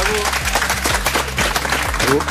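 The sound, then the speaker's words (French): An audience applauds a dance crew with a steady wash of clapping while a voice talks over it, loud throughout. “Bien évidemment, vous pouvez les applaudir. Bravo, SNT Crew. Bravo.”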